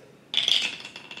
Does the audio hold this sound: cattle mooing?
no